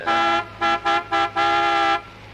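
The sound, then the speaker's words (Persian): A vehicle horn honks repeatedly at a standing bus: five blasts, one long, then three short, then a long final one, all on the same steady bright pitch over a low hum. “چه خبره تا اینقدر بوق میزنی؟”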